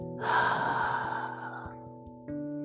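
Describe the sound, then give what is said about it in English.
A deep breath during a guided breathing pause: one long, airy, breathy rush that swells and then fades. Soft sustained musical tones continue beneath it and carry on after it ends. “Let us take a deep breath in and a deep breath out.”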